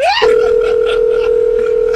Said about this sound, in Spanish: Parece que se desconectó la llamada.